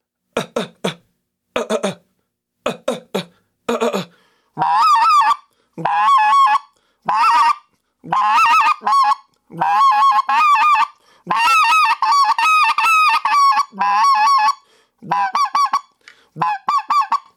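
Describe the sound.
Loud goose call blown by hand in triple yodels, with short sharp honks at first and then longer runs of rapid, breaking honk-and-yodel notes repeated in bursts.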